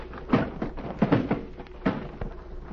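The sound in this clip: A wooden packing case drops from a ship's gangplank and breaks open, landing in several heavy thuds and knocks in quick succession, with no voices over them.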